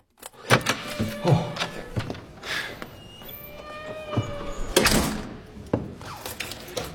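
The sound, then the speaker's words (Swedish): Rattling and thumping of a stuck door lock, worked by someone locked inside, producing a series of loud clunks, knocks and metallic rattles in irregular bursts. “Jag kom inte ut! Jag har låst in mig. Vad är det här för jävla lås?”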